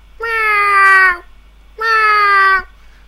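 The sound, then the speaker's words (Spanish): A person imitates a cat meowing, giving two drawn-out, nasal meows of about a second each, separated by a short pause. Each call is loud and tonal and sags slightly in pitch toward its end. “Es suficiente para este maullido.”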